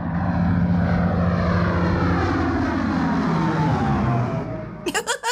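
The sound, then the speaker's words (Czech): An airplane flies over a meadow where sheep graze, its loud droning engine roar sliding gradually lower in pitch as it passes, easing near the end where a few short clattering sounds break in. “No to do přírody zrovna moc nepatří, ale nedá se s tím nic dělat. My to ale víme, je to 3, 2, 1, letadlo.”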